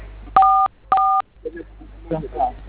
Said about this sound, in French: Monsieur, oui, j'ai composé, s'il vous plaît. Étoile 440. Hein? Étoile 440. Étoile 7.